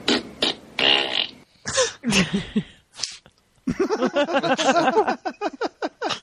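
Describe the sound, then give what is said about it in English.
Many fart sounds follow one another, some long and buzzing, others short and squeaky, ending in a rapid run of sputtering bursts. “change his diet so he's not farting up the bus. Fart.”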